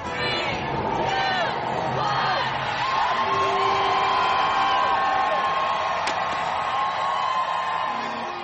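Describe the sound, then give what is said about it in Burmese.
A huge crowd cheers at a New Year celebration in Times Square, New York. It makes a dense, loud, continuous roar full of overlapping shouts, whoops and high yells, and it stays at a steady level throughout. “ကြခဲ့ရတာကတော့အမေရိကန်ပြည်အောင်စုနယူးယောက်မြို့က Times Square ရင်းမြစ်မှာနှစ်သစ်ကိုကြိုဆိုနေကြတာပါ”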